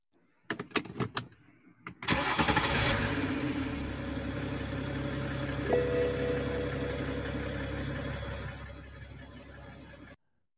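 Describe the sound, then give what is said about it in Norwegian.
A BMW car engine starting: a few sharp clicks, then the engine catches with a surge and settles into a steady running hum that cuts off near the end. “for dem som måtte lure, så var det en BMW som startet”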